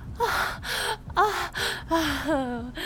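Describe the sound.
Heavy breathing from a person during sex, a rapid series of loud, voiced gasps and moaning breaths with shifting pitch, several close bursts in a row.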